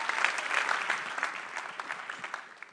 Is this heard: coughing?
no